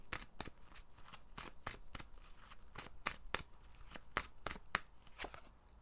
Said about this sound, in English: I'm going to pull a card now and see what it is that you guys need to hear.